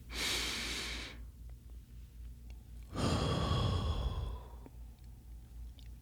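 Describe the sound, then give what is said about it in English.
Slow, deep breathing as part of a relaxation exercise: a breathy rush for about a second, a pause, then a longer and louder breath lasting about a second and a half that fades away, with no talking. “Take in that deep breath for 3 to 4 seconds and then release it.”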